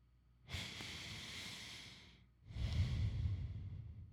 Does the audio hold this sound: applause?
no